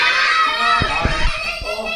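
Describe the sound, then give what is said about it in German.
Many children in a theater audience call out together, joining in as the actors question them during an interactive play. Their high, overlapping voices form a loud, continuous clamor of shouts throughout. “Die Kinder spielen begeistert mit, wenn die Akteure ins Publikum fragen.”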